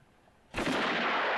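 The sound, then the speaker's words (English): A single sudden, loud gunshot in a film scene, aimed at a man's kneecap, breaks a near-silence and is followed by a sustained, roaring wash of noise that lasts to the end. “And then shoots him in what looks like the kneecap.”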